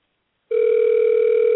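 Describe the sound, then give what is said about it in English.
A telephone tone on an outgoing cold call cuts in after half a second of silence and holds as one steady, unbroken electronic tone, fairly loud and alone, with no voices. “Here you go. Here comes the ringtone.”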